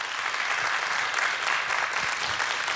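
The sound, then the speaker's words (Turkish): An audience gives strong applause for an orchestra of Turkish classical music instrumentalists, with dense, steady clapping that holds at an even level throughout. “Onur Özel Çağlayan ve orkestrasında güçlü bir alkış rica edebilir miyim efendim?”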